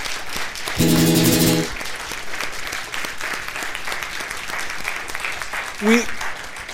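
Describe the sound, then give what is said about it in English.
An audience claps for a choir of singers. The applause is steady and fairly quiet. Short vocal sounds poke through near the start and again near the end. “But another round of applause for the Spirito singers.”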